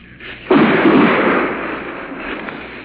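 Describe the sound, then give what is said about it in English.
An artillery shell lands with one heavy explosion on a battlefield, a sudden loud thud swelling into a broad rumble that slowly dies away. “Seems like those artillery shells are landing in the back of my neck, whereas they were landing 200 yards to my right.”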